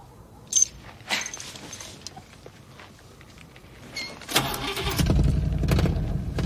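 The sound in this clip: A car engine cranks, catches and settles into a loud, rumbling idle, after a few brief clicks and rattles in an otherwise quiet stretch.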